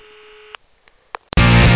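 A telephone call rings while waiting to be answered: a single steady ring tone, then a few faint clicks, and finally a sudden loud burst of noise as the line connects.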